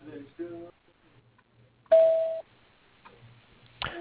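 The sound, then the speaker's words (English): A voicemail recording tone sounds once: a steady, clear beep lasting about half a second, set between faint bits of a voice. “If you would like to leave a voicemail message, please press 1 and begin speaking after the tone.”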